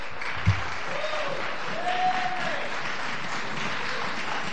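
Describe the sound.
Faint, steady applause from a church audience welcoming a guest speaker, an even patter of clapping that holds at the same level throughout, with one soft thump near the start.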